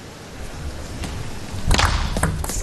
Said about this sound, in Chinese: 哦，又是一个绝对大脚的反手拧。